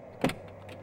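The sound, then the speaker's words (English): A car door opens with a single short click and thunk, brief and alone over a low, faint hum. “The door of the car opens.”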